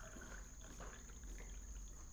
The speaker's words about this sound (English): Then you have your beer and you pour it, all of it, in our stein.